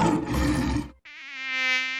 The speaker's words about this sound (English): Don't let ticks and mosquitoes suck the fun out of your summer. It's mosquito season